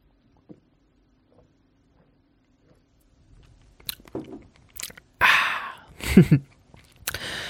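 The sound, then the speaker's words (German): A person taking a sip of a drink with the microphone moved aside: near silence, then a few soft mouth noises followed by louder wet slurping and swallowing sounds. “Einen Moment, ich muss mal ein Schluckchen trinken. Ich mache das Mikrofon weg, sonst hört ihr das noch in Full HD Dolby Surround.”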